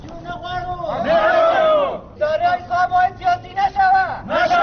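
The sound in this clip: A small crowd of dismissed employees protests in Afghanistan, raising loud shouting voices that break into a rhythmic run of chanted slogans.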